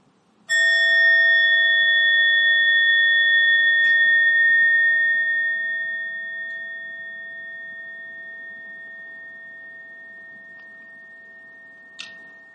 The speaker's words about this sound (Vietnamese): Hơi thở vào, hơi thở ra, sau đó mình mới thỉnh một tiếng chuông.